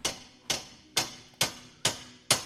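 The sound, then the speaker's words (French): A screw driven in by hand with threadlocker on its thread gives six sharp, evenly spaced clicks, each about half a second apart and fading quickly, with near silence between them. “Je visse dedans, là. Alors j'ai mis un stop-filet, c'est-à-dire c'est un produit spécial qui va bloquer le filetage. Ça ne pourra pas se dévisser.”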